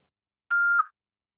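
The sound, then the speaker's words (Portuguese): A single voicemail beep: one steady electronic tone lasting under half a second, starting and stopping abruptly, alone in silence. “Após o sinal, fale o seu nome”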